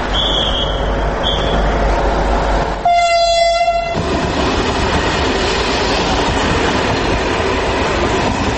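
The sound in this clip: A train on Serbian railways rumbles and clatters steadily and loudly, with a long horn blast partway through before the rolling noise carries on.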